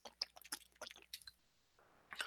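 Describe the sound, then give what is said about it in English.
Sips of water with small wet slurping and mouth sounds, a few soft bursts close together, then a brief hiss of faint noise near the end. “Sorry, I need to sip on some water.”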